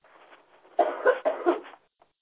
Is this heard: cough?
yes